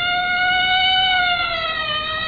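Siren of a police patrol car passing: a loud, steady electronic wail with several layered tones, its pitch dipping slightly toward the end.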